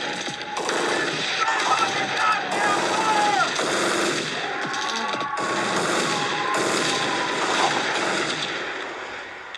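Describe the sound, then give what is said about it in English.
Dense, sustained gunfire from pistols and shotguns as men open fire in a police shootout, a loud, unbroken volley of overlapping shots running the full length with no pause. “These dudes start open firing with pistols, shotguns.”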